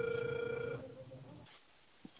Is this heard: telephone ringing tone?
yes

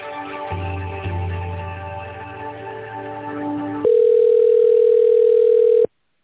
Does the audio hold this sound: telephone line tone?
yes

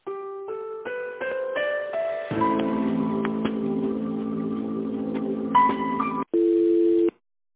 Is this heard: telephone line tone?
yes

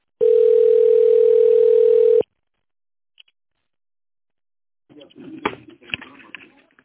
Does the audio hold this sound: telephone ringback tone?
yes

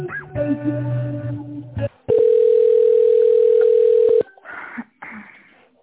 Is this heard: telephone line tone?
yes

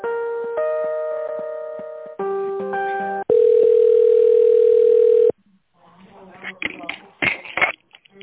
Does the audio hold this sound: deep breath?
no

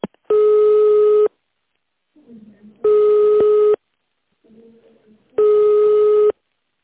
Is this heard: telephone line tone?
yes

